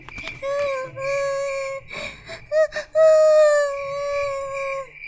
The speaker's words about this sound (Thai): นกน้อยสีฟ้าหมดแรงเต็มที มันได้กระโดดไปข้างหน้าไม่ไหว เพราะว่ามันนั้นเจ็บมาก มันได้เริ่มร้องไห้อีกครั้ง